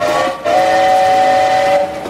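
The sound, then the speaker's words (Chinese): A train whistle sounds as a train is about to depart: a loud, steady, piercing tone that breaks briefly near the start, then holds for well over a second before cutting off. “火车要开了啦！”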